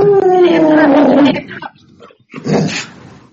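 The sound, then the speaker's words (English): A dog gives a loud, drawn-out tonal cry that falls slightly in pitch over about a second. After a short pause comes a briefer, rougher sound. “What was that? That's the dog.”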